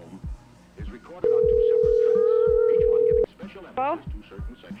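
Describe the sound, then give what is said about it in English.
Ringback tone on an outgoing phone call: a single steady ring lasting about two seconds, with people talking before and after it. “She's ringing now.”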